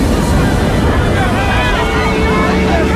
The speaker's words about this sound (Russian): В кадре волна поднимается на шлюпочную палубу.